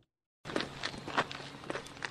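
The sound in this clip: Footsteps walking along a trail in a nature preserve on the edge of Lake Erie, a steady series of crisp, evenly paced steps heard alone after a brief silence.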